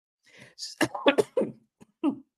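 Someone coughs after something went down the wrong pipe: a few sharp, raspy coughs in quick succession, then a short pause and one last cough.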